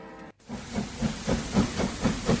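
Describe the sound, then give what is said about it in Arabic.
A train sets off under a steady hiss. After a brief gap, even rhythmic chuffing pulses start and repeat many times at a regular pace, with no voices. “وانطلق القطار.”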